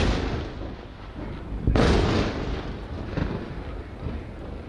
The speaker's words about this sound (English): That's the sound of explosions and now sirens there over Haifa in northern Israel overnight.